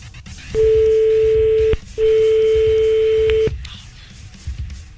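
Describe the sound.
Telephone tones as a call is placed: two long, loud, steady beeps of just over a second each, split by a short gap, over low background noise.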